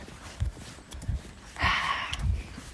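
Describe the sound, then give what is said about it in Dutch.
Footsteps of a person walking outdoors on a roundabout route toward a workplace: four low, dull treads at a steady, unhurried pace, heard alone. “Ik loop trouwens naar een hele mooie werkplek toe. Gewoon nog geen eh, anderhalf kilometer van huis. Ik ben er met een ommetje naartoe aan het wandelen.”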